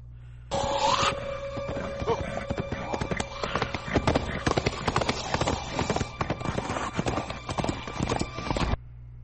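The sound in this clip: Horse hooves clip-clopping at a gallop: a long, rapid and steady run of many sharp hoofbeats that continues for several seconds at an even, fairly loud level.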